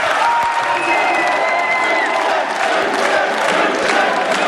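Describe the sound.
An audience in Munich's Old Town Hall applauds steadily. Dense clapping blends with crowd cheering at an even, loud level throughout.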